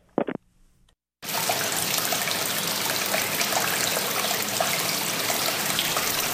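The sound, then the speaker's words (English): Hot spring water at about 118 degrees flowing from its source into a stone cave near North Bend along the Middle Fork Snoqualmie, a loud, steady, even rush that sets in after a brief quiet moment with a couple of faint taps. “what you're hearing is the source of the hot springs flowing into a stone cave at about 118 degrees.”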